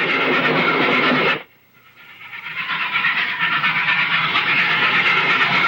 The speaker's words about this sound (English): As the train rolls across the windswept prairies